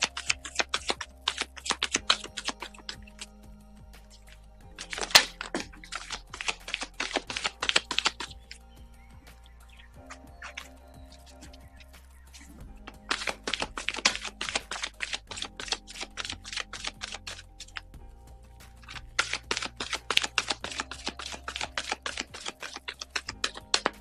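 Oracle cards shuffled and drawn for a reading: several bursts of rapid papery flicking and clicking, separated by quieter stretches of soft handling, all fairly faint.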